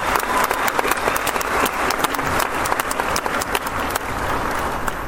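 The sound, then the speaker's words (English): Audience applause fills an eighth-grade graduation ceremony for the class of 2015: a loud, steady burst of many hands clapping at once that lasts throughout and eases off slightly toward the end. “give Frankie another round of applause? That was awesome.”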